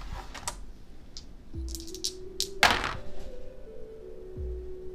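Dice rolled during a board game, heard as several light clicks and clacks of small pieces tumbling and settling, with one sharper knock near the middle.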